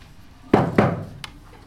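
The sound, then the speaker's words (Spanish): Knocking on a door in a school classroom: two loud, hollow knocks in quick succession, then a fainter, sharper tap, heard alone without talk. “¿Cuántas veces toqué la puerta?”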